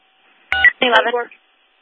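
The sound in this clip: Brief burst of telephone keypad tones as a police dispatcher dials a callback to a third-party caller about an assault in progress, lasting under a second.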